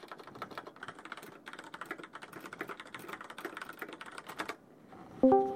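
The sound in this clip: Rapid typing on a computer keyboard: many quick, steady keystrokes in a dense run that stops shortly before the end, followed by a brief tonal sound.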